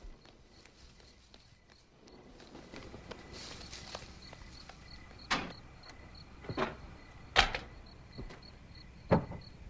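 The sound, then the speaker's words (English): Soft footsteps of a man in a monk's habit stepping out through a doorway onto grounds: a few irregular scuffs and sharper thuds that grow a bit firmer toward the end, over a quiet hiss with a faint repeating high chirp. “Then, when they're out of sight, he steps out through the doorway.”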